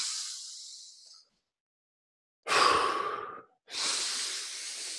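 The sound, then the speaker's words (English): Long, deep human breaths, inhaling fully and blowing all the way out. A breathy, hiss-like breath fades away, a silent pause follows, then two loud airy breaths come back to back. No voice is heard. “Take 10 long, deep breaths where you inhale as much as you can and blow all the way out”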